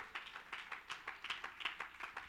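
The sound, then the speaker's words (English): An audience claps hands in praise with faint, steady, rhythmic claps, many in quick, even succession. “Clap your hands and give God”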